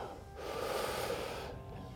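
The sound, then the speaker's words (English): A single deep breath drawn in during a workout stretch, a soft, airy rush that swells and fades over about a second, faint and without talk. “Deep breath. Exhale all that air out. Deep breath.”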